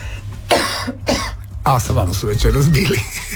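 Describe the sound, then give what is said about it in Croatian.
A couple of sharp, harsh coughs from a host who has caught a cough, followed by talking. “mene je neki kašalj uhvatio”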